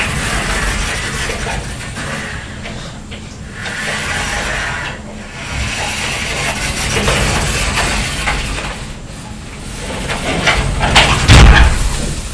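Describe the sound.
Doors are opened and shut, with sliding, rattling mechanism sounds and soft knocks, ending in one loud thud near the close.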